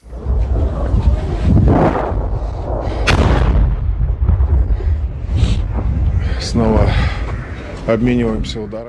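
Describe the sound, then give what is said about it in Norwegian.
Ukrainian artillery shells strike near the front line: heavy booms and dense low rumbling roll on through the whole clip, with a man's voice talking over them. “En russisk journalist er ved frontlinjen og forteller om ukrainsk artilleri som slår ned nær ham.”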